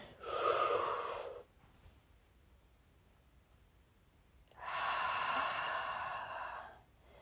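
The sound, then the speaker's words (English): A deep breath, heard as two long, airy rushes of air separated by a quiet pause of a few seconds, with no talking. “it feels good to breathe. Bet you haven't really taken a deep breath like that today”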